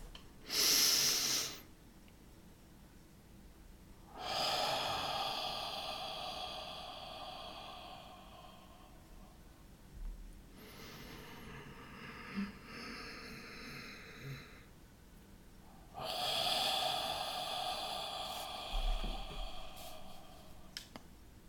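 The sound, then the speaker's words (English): Two slow, deep breaths, each a long airy rush of inhaling and exhaling, drawn during a guided relaxation exercise, separated by quiet pauses with faint background noise. “So I invite you to start with two deep breaths and exhalations. So let's do it together.”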